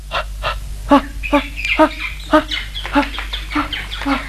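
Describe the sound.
A large flock of ducks arriving at midday, calling with many short, nasal, honking cries in an irregular string, several voices overlapping over a low steady rumble.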